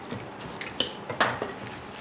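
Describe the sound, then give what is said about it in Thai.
Soft mango salad with palm sugar, fish sauce and pounded seasoning is tossed, giving faint, irregular clinks and scrapes of a utensil against a bowl, with a few sharper taps among them. “อันนี้คลุกแบบนี้แบบว่าเพื่อที่จะให้แน่ใจว่าทุกชิ้นนี่ได้เครื่องที่เราตำไว้”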